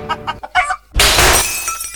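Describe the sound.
Cheap glass shattering in one loud crash that rings on and scatters into bright tinkling. A few short clucking sounds come just before it.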